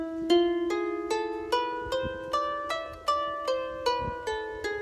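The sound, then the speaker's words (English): A musical scale decoded from Hebrew cantillation marks, played as many evenly spaced, quickly decaying plucked-sounding notes that step mostly upward in pitch, quiet and with no voices. “And she discovered what the scale was, and it sounds like this.”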